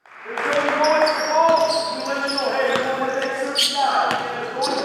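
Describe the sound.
A basketball bounces on the parquet court during an FC Bayern basketball training session, with a few sharp thumps heard under a talking voice.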